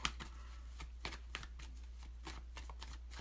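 A deck of cards being shuffled and a card drawn during a card reading: a steady run of soft riffling with several sharper snapping clicks, fairly faint over a constant low hum.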